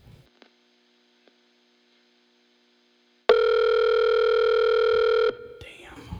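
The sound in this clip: A telephone dial tone while placing a call: a few faint clicks, then a loud, steady buzzing tone that holds for about two seconds and cuts off abruptly, followed by quieter line noise.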